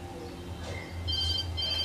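A telephone rings with an incoming call: a steady, high electronic ringing tone starts partway through and continues to the end over a constant low hum.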